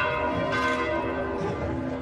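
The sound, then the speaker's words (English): Church bells ring at the Vatican to celebrate Christmas, a sustained, steady peal rich in layered overtones, loud and continuous throughout with no voices. “Church bells are ringing to celebrate Christmas at the Vatican”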